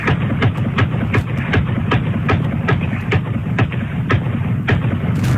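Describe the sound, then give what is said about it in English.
AR-15 rifle emptying a drum magazine: many sharp, evenly spaced shots in a fast, steady rhythm over a constant loud, noisy background, with no voices. “handed him his AR-15 and says, unload this drum mag. So it's my dad shooting”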